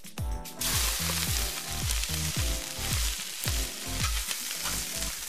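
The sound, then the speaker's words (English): Vegetables sizzle as they go into a hot pan over a fire disc, giving a loud, steady, hissing fry that continues with no one talking. “Oh yeah, this pan's nice and hot. Let's add the vegetables.”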